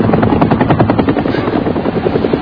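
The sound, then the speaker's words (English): Helicopter rotor chopping in a steady, rapid thumping rhythm, loud and continuous throughout, with no voices over it. “Look at this. It's a helicopter.”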